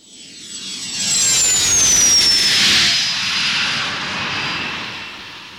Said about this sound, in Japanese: 用意ができたらすぐおじさんのフライングバイクで出発だ。